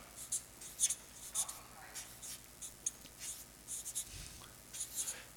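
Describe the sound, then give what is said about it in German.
A pen writes on paper as someone takes notes: faint, scratchy strokes in many short bursts, quiet and irregular. “Ich schreibe das einfach nur auf. Ich bin der Schreiberling.”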